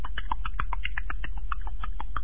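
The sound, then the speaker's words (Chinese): Horse hooves gallop far off: many quick, evenly spaced hoofbeats in a fast, steady rhythm over a constant low rumble, with no pause throughout. “他们正在念叨韩德让，只听远处马蹄声急”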